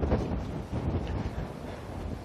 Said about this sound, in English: And it's a beautiful day, so everybody who wasn't moving yesterday is making up for it today. Yeah, there's a little wind.